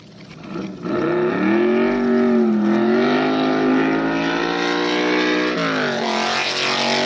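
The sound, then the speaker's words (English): A 427 Cobra Roadster sports car engine roars loudly and steadily, its pitch climbing, wavering up and down and then shifting near the end. “Here's a 427 Cobra Roadster.”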